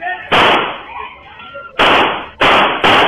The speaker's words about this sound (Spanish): El oficial le dispara varias veces y el tipo se mantiene de pie